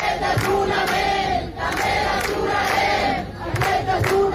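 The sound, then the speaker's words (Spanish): Crowd at a protest encampment in Barcelona chanting, many voices shouting a rhythmic slogan in unison, loud and sustained with brief dips between phrases. “en torno a 15 ciudades de España mantienen sus acampadas, se mantienen allí y vamos a recoger los sonidos. Por ejemplo, así sonaba este jueves Barcelona.”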